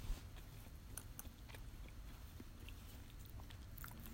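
Soft, wet chewing of tarako pasta with cod roe, many faint smacks and clicks repeating irregularly over a low steady background.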